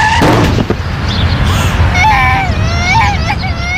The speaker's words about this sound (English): This is the sound of a child being hit by a car at 30 miles an hour.